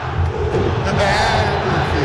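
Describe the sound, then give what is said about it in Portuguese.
A Cruzeiro football crowd at the Mineirão stadium chants loudly at the opposing coach during a match, a dense, steady roar of massed voices throughout. “Trocou, hein, olha a torcida convidando o Jardim a tomar suco de caju.”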